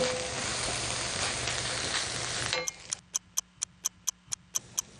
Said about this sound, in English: So we're getting that underway. We want the onion to caramelise.